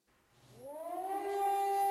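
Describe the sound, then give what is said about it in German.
A civil defense air-raid siren north of Tel Aviv winds up, its faint wail rising in pitch before holding steady as it swells gradually louder. “Sirenenalarm nördlich von Tel Aviv.”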